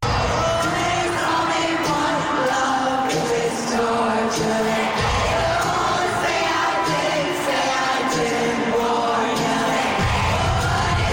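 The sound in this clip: A concert audience in Sydney cheers and sings together, a loud, dense roar of many voices that holds steady throughout.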